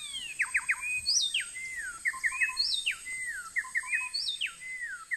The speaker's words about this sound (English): This is a recording of two mustache wrens. The singing appears random until the birds synchronize and a pattern emerges.